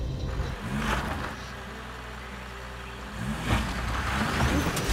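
A vintage diesel car engine runs on a dirt farm track: a steady low rumble with a few brief swells in level, as if lightly revved.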